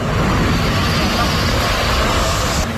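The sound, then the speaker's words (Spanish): Loud, continuous engine rumble from a column of tractors advancing to cut firebreaks during a forest fire, a dense, unbroken roar that stays at one level throughout. “La escena que escuchas es la de una columna de tractores que avanza intentando crear nuevos cortafuegos”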